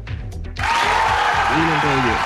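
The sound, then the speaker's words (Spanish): Studio applause welcoming a guest on a late-night talk show, a broad even hiss of clapping that starts after a brief pause and continues steadily under a talking voice. “Mi querido Michel, reciba el aplauso del Trasnoche de la radio.”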